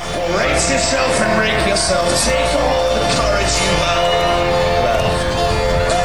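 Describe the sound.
A band playing live at the Memphis in May Beale Street Music Festival in Memphis: a singer's vocals ride over dense, steady instrumental backing that stays loud throughout.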